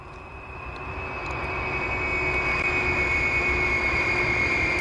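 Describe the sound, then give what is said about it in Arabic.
An airplane in flight gives a steady, droning engine roar with a thin high whine riding over it, swelling a little in loudness before holding level. “تخيلوا وياي إن نحن الحين راكبين الطيارة”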